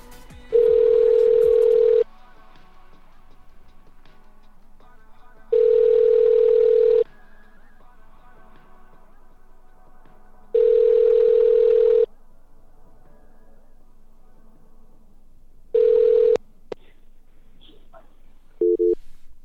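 Ringback tone of an outgoing telephone call: a steady, mid-pitched electronic buzz repeating in four long rings separated by silent gaps, followed by a short tone fragment at the end.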